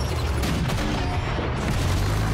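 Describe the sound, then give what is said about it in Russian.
Loud battle noise fits a 45 mm gun firing in a war radio drama: a dense, steady roar of gunfire and booms runs the whole clip with no clearly separate blasts and no voices. “Выстрел 45-ки.”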